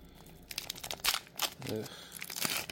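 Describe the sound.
A foil trading card pack is opened by hand, giving several sharp bursts of crinkling and tearing. A voice briefly makes a sound in between.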